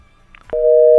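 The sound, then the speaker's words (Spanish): A telephone busy tone after a call is cut off: one loud, steady, pure mid-pitched beep lasting about half a second, preceded by faint line noise. “Bueno, se nos cortó la llamada.”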